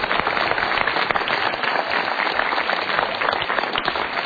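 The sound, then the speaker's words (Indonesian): Audience applause at a motivational talk show, a dense, steady wash of clapping that stays loud and even for the full few seconds with no clear voices on top. “Kita harus berikan tepuk tangan kembali.”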